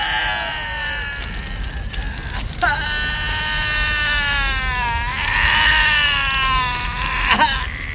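Wailing cry of a character burning to death after a Molotov cocktail ignites, sounding like a whiny baby: a couple of long, wavering, high-pitched bleat-like wails with strained harmonics.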